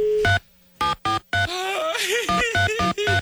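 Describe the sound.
Telephone dialing beeps: a series of short, evenly pitched tones with a brief spoken passage in the middle between the groups of beeps.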